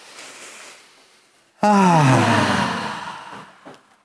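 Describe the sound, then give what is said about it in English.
A group taking a deep breath together, released as a sudden, loud voiced sigh whose pitch slides downward and fades over about two seconds. “Okay, so everyone take a deep breath.”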